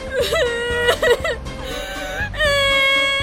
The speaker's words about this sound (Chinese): 哎呀，你别哭啊！我只是要你选看哪张比较漂亮啊！你哭什么哭啊 ？